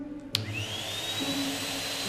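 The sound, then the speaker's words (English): A vacuum cleaner runs along the gap between skirting board and carpet. Its fairly quiet, steady motor hum carries a thin whine, and a short click sounds near the start. “What we need to do is vacuum thoroughly the cracks and the crevices right in between there, the skirting board and the carpet.”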